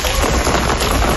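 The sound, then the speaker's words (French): Heavy rain in Lisbon, a dense, steady hiss of water pouring down that stays loud and even across the whole short stretch, with no voices. “Ça, c'est le bruit de l'eau.”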